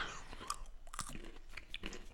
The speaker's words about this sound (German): Also ist eine schöne, fruchtige Nuss. Ja, dann lasse ich die jetzt mal knacken